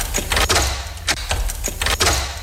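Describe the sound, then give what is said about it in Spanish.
Metallic rattling and sharp clunks of a door lock being forced and pried open at a shoe shop. Many irregular jolts and clatters follow one another in quick succession, with a steady low rumble underneath. “Ayúdame, esta cerradura se romperá fácilmente.”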